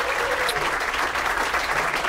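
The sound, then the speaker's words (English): Audience applause at the end of a live jazz recording with piano and saxophone: dense, even clapping from many hands, steady in loudness throughout, with no voices. “a live recording. So a well-deserved applause”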